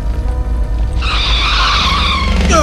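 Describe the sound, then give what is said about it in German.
A car skids as its rear wheel jams, a loud, sustained, high tire squeal that sets in partway through over a steady low engine rumble that runs the whole time. “Ach, jetzt hat sie das Hinterrad verkeilt.”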